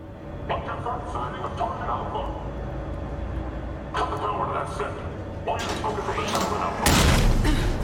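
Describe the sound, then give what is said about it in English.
A video game elevator travels upward with a steady low mechanical rumble, broken by a few clanking bursts and a heavier, louder thud near the end. “But let's go up this elevator.”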